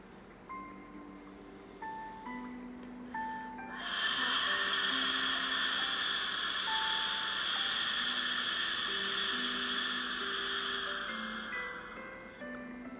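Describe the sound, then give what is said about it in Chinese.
Ujjayi throat breathing, a long steady inhale drawn through a narrowed throat, heard as a smooth, loud breathy hiss lasting several seconds over soft sustained musical tones. “再来准备吸气”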